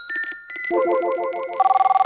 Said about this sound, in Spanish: Teléfono. ¿Quién es? Dice uno de ellos asustado.